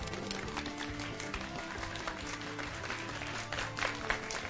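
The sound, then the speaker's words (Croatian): Live applause from a studio audience on a Belgrade radio show: dense, continuous clapping that holds at a steady level from start to finish, with a slight swell near the end. “i začudo ovog petka imamo živi aplauz.”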